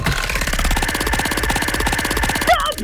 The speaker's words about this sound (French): Je fais tourner la roue et dès que tu le sens, tu cries stop de toutes tes forces